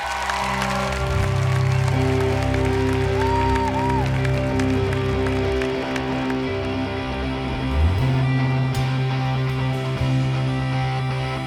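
An audience at a worship event applauds and cheers to welcome the band Casting Crowns, a dense, steady wash of clapping that holds at an even loudness throughout.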